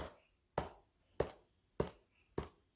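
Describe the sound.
A hand taps in a steady rhythm like a heartbeat, keeping time during Buddhist chanting practice. Four soft, evenly spaced knocks come about every 0.6 seconds over near silence.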